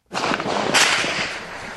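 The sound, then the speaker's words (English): Gunfire crackles during outdoor news reporting near the city of Bossangoa in the Central African Republic. The shots come as a dense, loud burst of sharp cracks that runs almost unbroken for nearly two seconds. “They're shooting again. Okay. The shooting started again, so everybody's having to run for shelter inside.”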